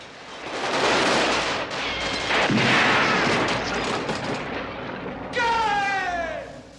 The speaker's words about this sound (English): In Scarface from 1983, directed by Brian De Palma, Pacino's character loads an automatic rifle before shooting from a landing during an intense gun battle.